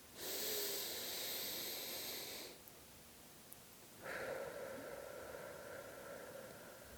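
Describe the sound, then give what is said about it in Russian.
Slow, deep breathing during a guided meditation: one long, airy breath, then a short pause and a second, longer breath that gently fades. No talk. “И подышим.”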